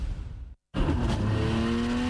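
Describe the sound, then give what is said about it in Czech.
A drift car's engine roars and revs at a street drifting race. A broad, rough roar with a steady engine drone breaks off into silence, then returns loud and sustained. “Nisa Street Drift 2026. Nejnavštěvovanější driftingový závod sezóny už 21. června.”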